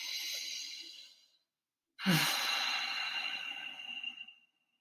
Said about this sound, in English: So in through your nose, out through your nose.